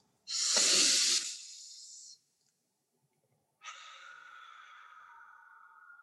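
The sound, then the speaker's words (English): A deep breath drawn in through the nose and let out through the mouth during a guided breathing exercise. A loud, airy inhale, a pause of over a second, then a long, steadier exhale with a faint whistling tone. “And we're just going to do one big inhale. Up our nose and then exhale through our mouth.”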